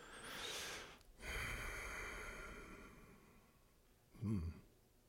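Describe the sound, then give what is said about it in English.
A preacher draws a sharp breath in through the nose during a church sermon: a faint, drawn-out breathy rush, then a brief louder snort-like burst. “Did you notice what I just did? I breathed in.”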